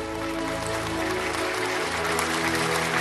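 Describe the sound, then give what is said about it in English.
A church audience claps during a service, a dense, steady wash of clapping that holds at an even, fairly loud level for the whole stretch over sustained tones. “With a clapping and a tongue innovation, we want to invite the ministration of the man of God”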